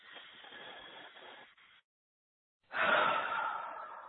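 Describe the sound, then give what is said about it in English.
Long, deep breaths in a guided breathing exercise: a soft, airy breath lasting about one and a half seconds, a brief silence, then a louder, breathy exhale that slowly fades. “Okay, so let's just begin to take some long, deep breaths. We'll take about 3 or 4 and keep them really long.”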